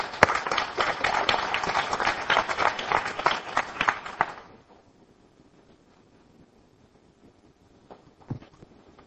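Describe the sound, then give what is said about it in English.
Audience applause welcomes a speaker to the front at a Celebrate Recovery church gathering. Dense, lively clapping lasts for about four and a half seconds, then stops, leaving near quiet with a few faint knocks. “So, come on up, Susie. And let's give her a hand as we welcome her.”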